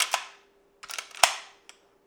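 An old lever-action rifle owned for about 35 years is worked at home during a hunter's final gun check, giving a handful of sharp metallic clacks and clicks in uneven bursts with quiet gaps between.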